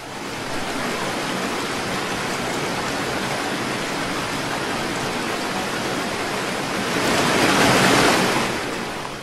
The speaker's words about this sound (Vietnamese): Những con sóng lớn cứ nối nhau va đập, sau lưng dư chấn vẫn chưa dứt.